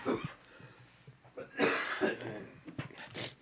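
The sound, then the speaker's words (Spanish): A few quiet, irregularly spaced coughs from someone with a persistent cough, with faint breathing between the bursts. “necesito un collar de limones para que se me quite la tos primero.”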